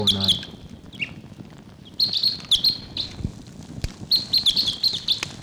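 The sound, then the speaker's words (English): Distant bird calls sound from a park where birds forage: several clusters of high, sharp chirps come in repeated bursts over a steady low background rumble. “A bird calling in the distance there.”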